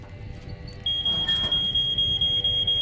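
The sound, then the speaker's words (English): A ceiling-mounted smoke alarm goes off in a room filling with smoke from a fireplace. After a quiet moment it starts suddenly with a shrill, high beep that repeats in quick, even pulses. “She turns sharply towards the smoke alarm on the ceiling.”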